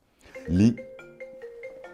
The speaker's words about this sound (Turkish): Miami'den arıyorlar. Bir saniye telefonu kapatayım.